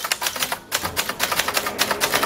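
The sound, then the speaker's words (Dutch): People hammer hard on the keys of orange manual typewriters set up in a library in Zwolle. Many sharp strikes form a loud, rapid, irregular clatter, with one brief pause early on. “Hij zette in een biep in Zwolle een hele rits oranje typemachines neer. En daar kunnen mensen dan lekker rammen op die toetsen.”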